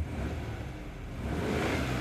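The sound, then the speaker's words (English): A car engine revving while the car fails to move because it is stuck in reverse: a steady low rumbling roar that grows slightly louder toward the end. “What's wrong with the car? It won't go.”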